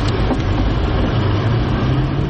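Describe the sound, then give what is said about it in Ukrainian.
An armoured car drives at high speed, its engine a loud, constant low-frequency rumble blended with road and wind roar. The noise is steady throughout, with no voices. “В місто заїжджаємо в броньованому автомобілі на великій швидкості, аби не поцілив ворожий дрон.”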